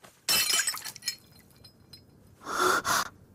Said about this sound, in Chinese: 他手中的碗掉在地上，打碎